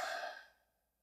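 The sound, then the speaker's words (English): A single deep breath drawn during a guided relaxation exercise, heard as one breathy exhale that starts full and fades to silence within about half a second. “Take a deep breath”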